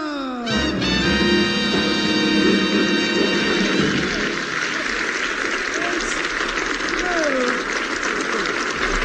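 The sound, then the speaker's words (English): Audience applause at a comic musical performance follows a short falling tonal sound at the start, then continues as a broad, steady wash, with faint voices rising above it later. “Stop that anti-sequel applause.”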